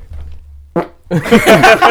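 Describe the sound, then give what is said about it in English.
A man's burp, forced out deliberately: a brief burst comes first, then a loud, rough, voiced belch rumbles on for nearly a second. “He's burping out.”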